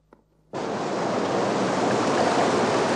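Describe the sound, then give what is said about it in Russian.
Rough, choppy sea surges beside a pier. After a brief quiet moment the sound sets in abruptly as a loud, steady rushing roar of surf that continues unbroken to the end. “Море очень неспокойное.”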